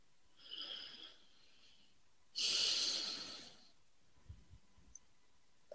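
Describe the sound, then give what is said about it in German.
Two deep breaths during a guided relaxation exercise, a soft, short breath followed by a louder, longer airy one, both faint and heard alone. “Und ich bitte dich jetzt, ein paar tiefe Atemzüge zu nehmen und deine Augen zu schließen.”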